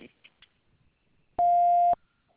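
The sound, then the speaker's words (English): A voicemail greeting ends in a single loud, steady, mid-pitched beep of about half a second, after a few faint brief sounds. “Please leave a message after the tone, and I get back to you as soon as possible.”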